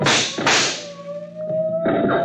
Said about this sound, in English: Hey, they're shooting back. Move.